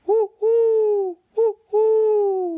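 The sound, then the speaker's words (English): A voice imitating an owl's hoot, four clear mid-pitched hoots in two short-long pairs, each long hoot held steady and sagging slightly at its end, with silence between them. “And just as Caden said that, the owl said,”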